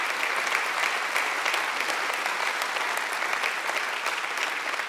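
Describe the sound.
Audience applause welcomes a guest speaker at a church gathering: a dense, sustained wash of many hands clapping that holds at an even, fairly loud level from start to finish.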